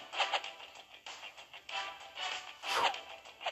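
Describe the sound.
A spear is thrown and hits its target in a video game: a series of breathy swishes, then one sharper, louder burst near the end.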